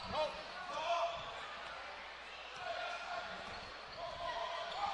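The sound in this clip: A basketball bounces repeatedly as a player dribbles it up the court during a Patriots high school game against Mountain Home, the thuds rising above a commentator's voice and crowd noise.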